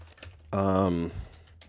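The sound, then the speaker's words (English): Typing on a computer keyboard while writing JavaScript code, with soft key clicks spread through the short clip and a brief voiced sound in the middle. “You can just type for tab to get like a basic one here.”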